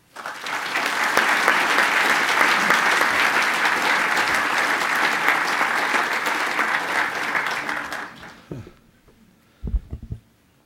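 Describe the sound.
Audience applause welcoming a guest speaker to a history talk at a museum event, a dense, loud sustained clapping for about eight seconds that then fades out, followed by a few low thumps.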